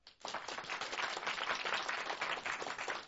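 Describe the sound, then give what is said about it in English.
A studio audience applauds at a live classical concert in a performance studio in downtown Louisville. Dense, even clapping builds quickly and holds steady at a fairly quiet level, with no talk over it. “I asked them to be sure to applaud before we started, and then they didn't, so I wanted to make sure that everyone outside knows that we have a full house today”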